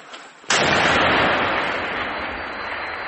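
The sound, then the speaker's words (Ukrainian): A recoilless gun (SPG) fires one shot with soldiers on the front line. A single sharp, loud blast cuts in and rolls into a long, rumbling decay that fades slowly. “Бійці наводяться, дають команду «постріл».”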